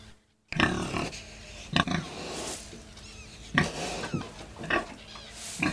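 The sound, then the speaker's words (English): A pig grunting and oinking in a run of short, rough bursts, several in a row with brief gaps between them, played on its own as a farm-animal sound quiz. “Number two was a pig.”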